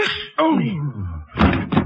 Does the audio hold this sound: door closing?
yes